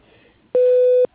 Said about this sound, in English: if you leave your name and number after the beep, I'll get back to you as soon as I can.